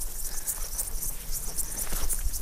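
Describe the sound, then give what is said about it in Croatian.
Grasshoppers chirp in a flower meadow, a dense, steady high-pitched buzzing and shimmering made of many quick pulses that continues throughout without any voices. “na predivnoj livadi punoj cvijeća, leptira, skakavaca.”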